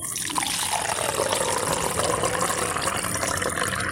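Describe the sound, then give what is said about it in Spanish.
Coffee pours in a steady, continuous liquid stream for about four seconds, with no talk. “Así cuando va cayendo el café.”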